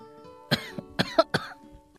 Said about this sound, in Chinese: 他咳了两声